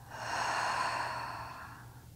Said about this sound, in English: I want you to take a deep breath in through your nose out through your mouth.